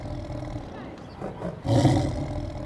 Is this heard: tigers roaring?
yes